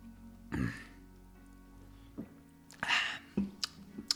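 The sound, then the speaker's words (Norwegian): Someone tastes a Tuborg Christmas beer, making a few short, soft sipping, swallowing and throat sounds separated by quiet pauses. “Ok, vi skal prøve da Tuborg juleøl. Skal se hvordan det er.”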